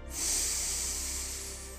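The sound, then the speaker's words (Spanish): One deep inhale during a breathing exercise, taken to a count of seven: a steady, airy hiss that swells quickly, holds, then tapers off over about a second and a half, with no talking. “Vamos a practicar esto. Inhala y cuenta hasta el 7.”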